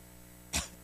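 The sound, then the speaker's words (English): A cough, heard as two short, harsh bursts, the second cut off at the end; fairly quiet, over a faint steady hum. “Excuse me, got a cough here.”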